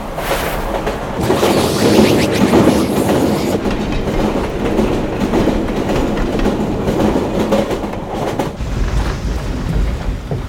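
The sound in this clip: A train moves along the rails, heard from inside a carriage, with a continuous rumbling clatter of wheels that swells up after a quiet start and keeps a fairly even loudness, with no voices.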